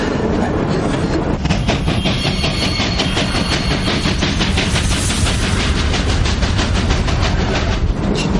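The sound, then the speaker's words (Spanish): A train on its way to Auschwitz travels on the rails with a loud, steady rumble and a regular clickety-clack of wheels over the track joints that continues throughout, with no voices. “Al amanecer, el tren sigue su recorrido.”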